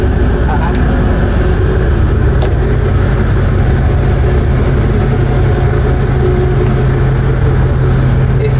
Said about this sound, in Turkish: Eski vapurdayım arkadaşlar. Evet. Bu eski vapurlar.